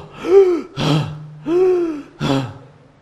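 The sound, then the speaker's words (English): A person imitates gasping for air after holding their breath: four loud, rasping breaths in quick succession, with voiced, strained gulps alternating with noisier heaving. “you can't hold your breath any longer, and what happens? You go,”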